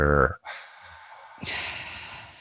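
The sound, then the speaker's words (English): Deep breath drawn in through the nose during a breathing exercise: a brief voiced sound gives way to a long, airy, noisy inhale that swells again near the end. “just do an inhale through the nose and try to direct that breath into your lower ribs. Deep breath in.”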